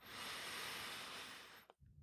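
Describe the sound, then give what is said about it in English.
A deep breath drawn in through the nose or mouth as a soft, steady, breathy rush lasting under two seconds. It is faint, then stops abruptly and is followed by a brief quiet pause. “let's take a moment to just breathe. Deep breath in”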